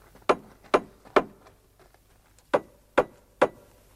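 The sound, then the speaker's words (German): Knocking on a house front door that stands open: six sharp knocks in two sets of three, with a short gap between the sets and no talk. “Die Haustür ist ja offen. Stimmt. Also trotzdem klopf”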